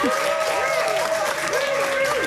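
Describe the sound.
An audience applauds a guest at a live radio talk show, the clapping thick and continuous while voices ring out over the top of it.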